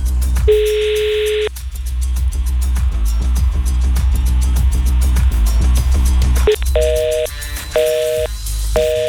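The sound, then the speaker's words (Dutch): Ringback tone of an outgoing telephone call that goes unanswered: steady mid-pitched tone bursts, one long ring early and a few shorter ones near the end, heard over continuous background music. “Nou ja, dan gaan we nummer 2 even bellen.”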